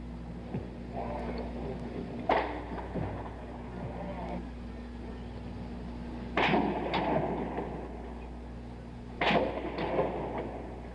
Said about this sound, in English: more sounds, more shots being fired at the tower, on the tower, on the mall